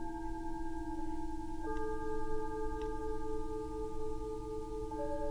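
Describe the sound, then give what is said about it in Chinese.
Electronic music composed from telephone redial tones: steady, layered pure beeping tones hold together quietly, then the tones step to new pitches a couple of times. “我创作了很多很多不同的重拨的声音，重拨的乐曲。”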